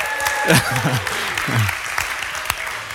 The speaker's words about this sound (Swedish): Kan vi få ett woo?